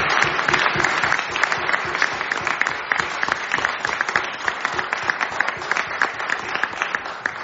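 Audience applause for the panelists at an empowered women event, a dense, steady patter of many hands clapping that holds at an even level for the whole stretch, with no speech over it.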